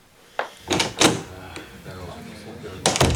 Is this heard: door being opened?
yes